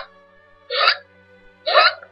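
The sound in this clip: A storyteller's voice imitates a little sheep's hiccups: two loud, breathy vocal hiccup bursts about a second apart, each short and sharp, standing alone between quiet pauses.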